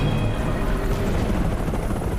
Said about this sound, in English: As the two remaining choppers hover above